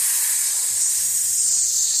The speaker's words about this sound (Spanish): ¿Seguro? Sisió la serpiente.